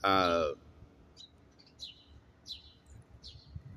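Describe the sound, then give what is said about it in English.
Faint bird chirps, a few short high tweets spaced over several seconds against a quiet background, following a brief loud voiced sound at the very start. “I'm gonna give y'all a little bit of ASMR experience and listen to the birds chirp real quick while I answer this.”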